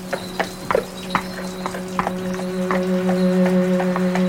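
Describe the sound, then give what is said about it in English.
Hooves of a horse drawing a cab clip-clop as it arrives: many sharp, irregular knocks over a steady low hum, with the background rumble growing slightly louder toward the end. “Oh, there's a cab. Cab! Cab!”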